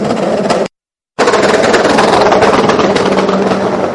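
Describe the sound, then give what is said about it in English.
Pneumatic air guns rattle as a crew changes tyres during a race car pit stop. The loud, continuous rapid hammering is broken once by a sudden short gap of silence near the start, then carries on unabated. “the team very much going to work doing the tyres. You can hear the air guns in the background, very, very well oiled.”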